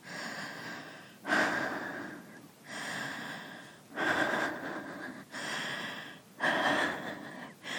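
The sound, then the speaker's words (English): Heavy, ragged breathing as someone tries to calm down after exertion: about three full breath cycles, each a sharp, gasping inhale followed by a long, hissing exhale, with no talking. “Just wait till my breathing calms down.”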